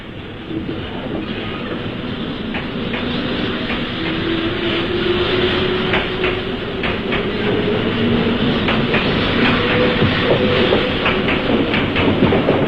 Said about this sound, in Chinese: 开往波多区的特快列车在第二站台7:17开车，开往鹿儿岛区的快车在第四站台